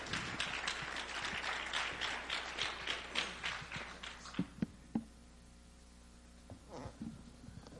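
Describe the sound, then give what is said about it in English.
An audience applauds to welcome a retired corporal as speaker, with dense, steady clapping for about four seconds that then thins out to a few scattered claps. “All right, so let's give him a warm welcome.”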